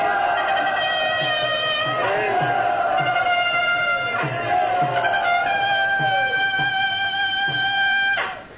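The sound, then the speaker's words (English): Devotees chant together in unison to welcome a visiting guest monk to a brahmachari ashram: a continuous, sustained blend of many voices with slowly shifting pitch. “First of all, we welcome Bhaktivedya Purana Maharaj to our Brahmachari Ashram by chanting.”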